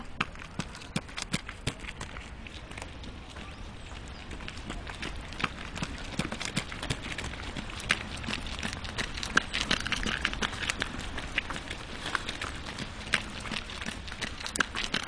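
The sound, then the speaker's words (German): Children run in groups through a forest, their footsteps making a steady, rapid, faint patter of many crunching steps over the ground that continues throughout without a break. “So liefen die Kinder in ihren Gruppen durch den Wald.”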